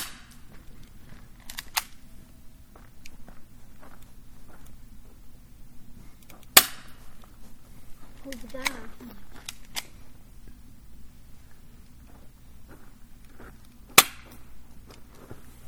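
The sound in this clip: Airsoft gun shots aimed at a stump by a campfire: a few isolated sharp snaps with long quiet stretches between them, two noticeably louder cracks standing out from the rest.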